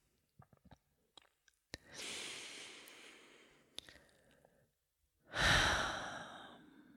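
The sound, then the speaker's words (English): A deep breath taken alone: a few small mouth clicks, then a long, soft, airy inhale of about two seconds. After a pause comes a shorter, louder, breathy exhale. “I have to take a pause there and just take a deep breath. And I want you to take a deep breath too.”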